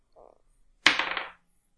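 Dice rolled for an attack roll in a tabletop game: a sharp initial clack followed by a quick run of rattling bounces that die away within half a second.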